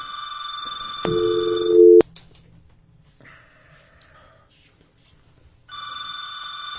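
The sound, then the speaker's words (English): A telephone rings for an incoming call on a call-in line: one loud, buzzing ring of about a second cuts in over steady background tones and ends in a sharp click. Quiet hiss follows before the tones return. “Okay, so we got a caller calling in, and we'll take that call here.”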